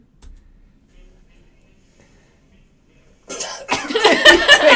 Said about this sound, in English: he takes a sip and immediately starts coughing.